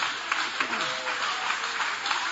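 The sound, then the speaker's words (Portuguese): Soft clapping from a church audience applauding, faint and even, a continuous patter of many hands without clear peaks. “Pode tomar o vosso assento, guarda a Bíblia com carinho e podem aplaudir a Deus também com muita alegria.”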